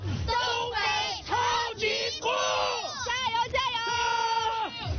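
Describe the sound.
Football fans of Jixi and Yanbian chant and cheer for both teams before a match: a crowd of voices shouts in a run of rhythmic bursts, each a loud sustained call with short gaps between them.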